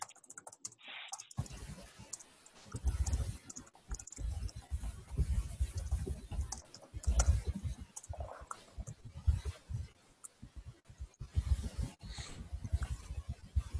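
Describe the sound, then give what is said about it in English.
Typing on a computer keyboard, a steady stream of quiet, irregular keystroke clicks that runs throughout, with short pauses between bursts of keys. “I'm going to type up a comment that says something to that effect.”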